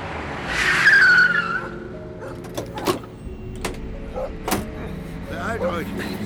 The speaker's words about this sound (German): Es dauerte nicht lange, da wurde diese jedoch durch ein nahendes Fahrzeug gestört.